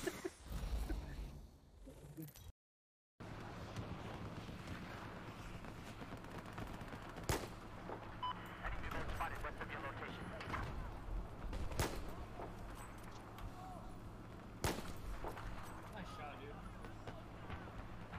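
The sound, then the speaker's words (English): Gunfire in a shooting video game, a headshot: three sharp, loud shots spaced several seconds apart, each cutting through a dense, steady layer of game noise. “You seen that? Boom, headshot! Boom, headshot! Boom, headshot!”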